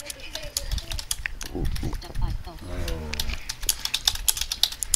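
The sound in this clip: Many quick, light taps of typing on an iPhone screen patter irregularly throughout, with a person talking briefly in the middle.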